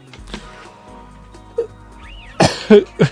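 Coughing: three loud, harsh coughs come in quick succession near the end, after a quieter stretch of low hum and faint knocks.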